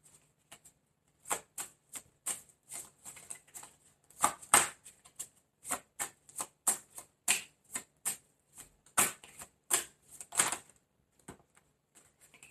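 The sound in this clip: Tarot cards being shuffled and drawn make many crisp flicking and slapping bursts in an irregular patter, some louder than others, with no voices.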